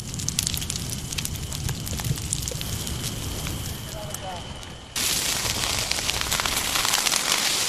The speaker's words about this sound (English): That is the sound of trees burning in a wild forest fire in my home state of California.